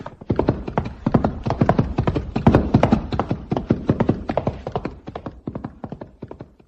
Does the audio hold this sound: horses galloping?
yes